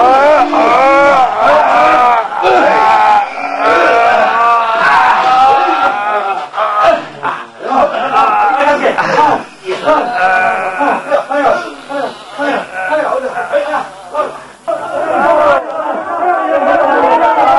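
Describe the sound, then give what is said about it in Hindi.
A crowd chanting slogans, many voices shouting together in a loud, continuous, rhythmic clamour with no pause. “अरे अब ये नारे क्यों लगने लगे?”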